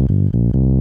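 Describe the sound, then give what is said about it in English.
Monophonic synthesizer bass: several short, loud, low buzzy notes in quick succession, each held briefly with a thick, dark tone. “You get a monophonic bass sound”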